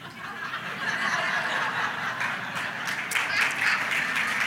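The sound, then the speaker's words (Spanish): Audience applause during a bilingual church sermon: a soft, steady wash of clapping with sharper scattered claps standing out in the later half. “¿Tú ves cómo te aplauden?”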